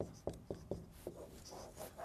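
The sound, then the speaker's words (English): Someone writes on a board, giving faint scratchy strokes. A few short, distinct marks come first, then softer rubbing strokes continue quietly. “In fact, I'm going to go ahead and write this up here and I'm going to come back to it.”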